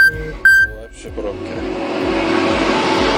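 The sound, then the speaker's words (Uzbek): Car traffic jammed at a road intersection, with engines rumbling and revving in a steady, broad wash of road noise that builds after a few brief tonal sounds at the start. “Demak, Qorasaroyda tirbandlik kuzatilayotgan ekan”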